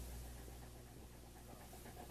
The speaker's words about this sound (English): I didn't know whether that you had ever seen a big dog like this. He's friendly, even though he's big.